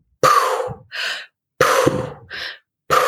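Recovery breathing after a freediving hold, in repeated cycles: each a loud, rushing breath followed by a shorter, softer one. Two full cycles are heard, and a third begins just before the end.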